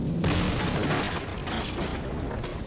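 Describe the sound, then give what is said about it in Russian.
Cannon fire roars in a dense, loud, continuous rumble of booms, with heavier bursts rising out of the steady noise and no voices. “Пушки смолкли, и грохот прекратился.”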